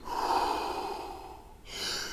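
Deep, slow breathing in a guided relaxation exercise: a long, soft airy breath followed by a brief pause and a second, brighter breath, with no talking.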